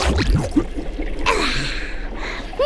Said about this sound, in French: respire d'un coup sec.